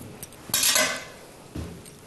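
A utensil clinks and scrapes against a bowl as a salad dressed with olive oil, lemon juice and spices is stirred. A couple of faint ticks lead into a louder clattering scrape, then one shorter clink follows.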